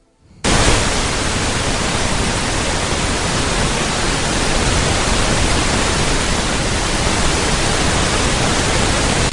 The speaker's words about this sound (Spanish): El siguiente sonido es el denominado ruido rosa.